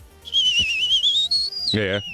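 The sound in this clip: A person whistling a high, wavering tone for about two seconds. The pitch lifts briefly, then drops into a lower, rougher sound at the end.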